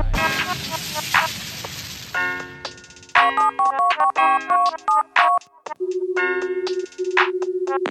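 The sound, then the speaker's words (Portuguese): A phone placing an outgoing call: bursts of electronic beeps and tones, then a steady low ringing tone broken by one short gap. “Vixe, vou fazer uma ligação, vou ligar pro JL.”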